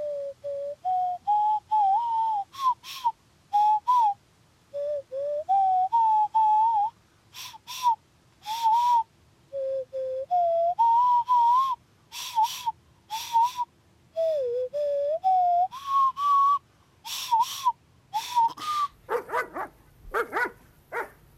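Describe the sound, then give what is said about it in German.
A man whistles a lure call meant for ostriches, imitating a bird call with many short, high warbling whistled phrases separated by brief pauses and repeated at an uneven rhythm. “Jetzt Obacht, ich pfeife jetzt den Lockruf für Vogelstrauß.”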